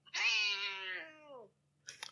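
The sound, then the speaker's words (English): A cat gives one long, loud, tonal meow that slides downward in pitch as it fades out. A brief faint noise follows after a short pause. “Cat.”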